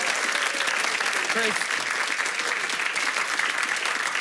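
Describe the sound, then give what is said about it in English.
Loud audience applause as a man is welcomed back to the stage at a live show, dense and unbroken throughout, with a voice briefly heard over the clapping. “Can we welcome him back to the stage? Yes! Give it up for the man, Chris.”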